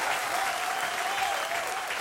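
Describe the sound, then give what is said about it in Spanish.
Applause from a live concert audience at a cantina-themed show in Nuevo León, Mexico, a steady dense wash of clapping filling the full two seconds at even loudness with no voices standing out. “Un aplauso grande para don Ramiro Cavazos.”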